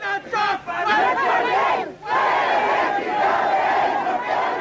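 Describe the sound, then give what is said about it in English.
Crowd shouting during the 1994 Zapatista Maya uprising against the Mexican state: a dense, loud roar of many raised voices, continuous throughout with one brief dip midway. “That was the sound of a Maya uprising in 1994, when the Zapatista Army of National Liberation, as they call themselves, declared war on the Mexican state.”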